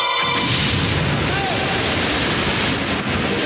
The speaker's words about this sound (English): A sharp object juts out from the bear's chest and blood oozes out of it. The bear explodes.